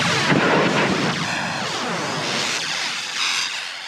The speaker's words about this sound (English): the lightning sound from Count Dooku was another legacy effect that was just kind of remodified for Attack of the Clones. Let's hear that.